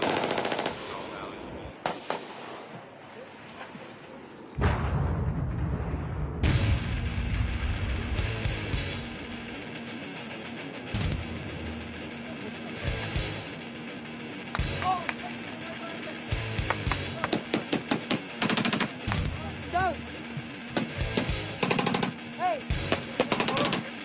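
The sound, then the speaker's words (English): Heavy automatic gunfire from a big firefight in the Korengal Valley: many rapid machine-gun bursts and scattered single shots crack out loud, separated by short lulls. “Big firefight. Yeah. Big. Packing up rounds.”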